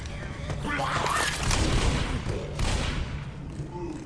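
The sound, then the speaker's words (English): Dense gunfire in a video game as players shoot a Boomer, many rapid shots merging into loud, crackling bursts that keep going throughout. “Oh, the boomer. Good shooting.”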